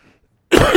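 A preacher coughs into a microphone during a Sunday sermon: a single abrupt, rough cough breaks out after a moment of near silence and rings on briefly.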